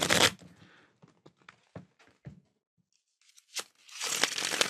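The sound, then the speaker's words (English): Tarot cards shuffled by hand as one card slips out of the deck: soft papery rustles and a few sharp taps, then a louder, sustained riffle at the end. No voices. “There's one card that fell out.”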